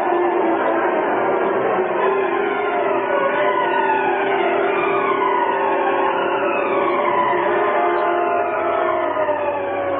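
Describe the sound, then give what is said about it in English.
Police sirens in a car chase through city streets, several wailing tones sweeping up and down and overlapping above a steady engine roar, continuous and loud for about ten seconds. “Sitting behind the wheel of a Black Beauty, Rick Reed, wearing the mask of the Green Hornet, led the police in a wild chase through the city streets.”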